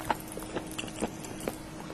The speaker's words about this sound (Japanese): 熱々を、お ー、 ソーセージ爆発。お、椎茸美味しそうです。この歯応え、